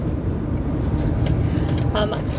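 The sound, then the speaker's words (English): Inside a car driving on the road between Williamsville and Watkins Glen, New York, a steady, dense low rumble of road and engine noise holds evenly throughout. “We are driving in our car between Williamsville and Watkins Glen, New York.”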